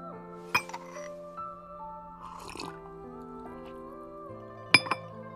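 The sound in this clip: Teacup clinking as warm tea is sipped: two sharp, bright clinks, one near the start and one near the end, with a soft rustle between them, over a steady, quiet sustained background.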